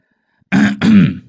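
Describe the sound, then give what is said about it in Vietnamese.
A man, a commune chairman, clears his throat threateningly with two loud, rough, harsh bursts in quick succession, heard alone. “ông chủ tịch tên Thuần đã hắng giọng ra vẻ dọa nạt”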